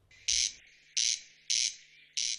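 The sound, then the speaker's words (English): A corncrake calls in the Irish Midlands countryside of County Westmeath: four dry, rasping bursts, evenly spaced at a steady rhythm, each loud and harsh against a quiet background. “Its distinctive call was once a common feature in Irish countryside. But around this part of the Midlands, it's been 10 years since the sound of the corncrake was officially detected.”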